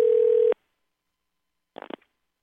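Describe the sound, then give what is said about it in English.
A telephone line tone as a call is dialed: one steady, even half-second tone, then silence, then a brief burst of faint crackling clicks. “Okay, it's dialing now.”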